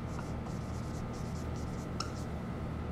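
Pen strokes writing out a short Latin phrase by hand: a run of soft, quick scratching strokes over a faint steady hiss, with one sharper tap near the end.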